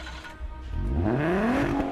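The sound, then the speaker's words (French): A 1995 VW Corrado engine in a racing video game turns over with its timing off, catching and revving up in one rising, strengthening drone that keeps climbing in pitch. “95 VW Corrado. Used to own one myself. Of course, I looked after mine. Turn her over.”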